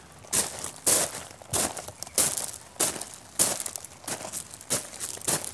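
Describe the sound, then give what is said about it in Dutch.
Footsteps crunching through a gravel pit in soft sports shoes, with a steady rhythm of many gritty, crackling steps of fairly even loudness. “Ik loop wel door de grindbak.”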